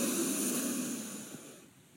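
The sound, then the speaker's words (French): A slow, deep breath taken to calm down before sleep. One long, airy exhale that starts fairly strong and gradually fades to near silence. “Des grandes respirations comme ça, là.”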